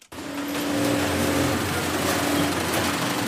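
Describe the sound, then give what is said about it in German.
Industrial sewing machines stitching protective workwear give off a steady motorized whine over a low hum. It rises quickly after a brief start and then holds level, with no voices. “So klingt es, wenn Arbeitsschutzkleidung genäht und hergestellt wird, auch für den deutschen Markt.”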